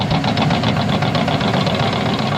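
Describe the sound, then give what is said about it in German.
A crawler bulldozer drives back and forth on a sandy construction site, its engine a steady, throbbing drone with rhythmic knocking pulses throughout. “Gerade fährt eine Raupe auf der Sandfläche hin und her.”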